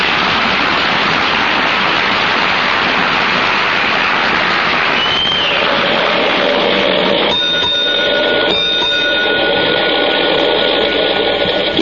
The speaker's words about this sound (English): in a pair of fourth row seats on the aisle, going downtown on the streetcar.